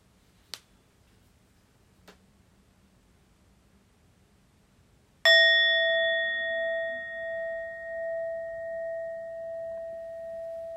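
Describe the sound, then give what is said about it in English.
A meditation bell is struck once and rings out alone with a sustained, humming tone that slowly decays with a gentle pulsing beat, preceded by two faint soft clicks. “So sending our hearts along with the sound of the bell to transcend anxiety and sorrow.”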